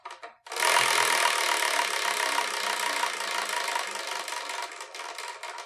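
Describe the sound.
A prize wheel spinning: loud, rapid rattling clicks run steadily for several seconds on their own, then break into more distinct separate ticks near the end.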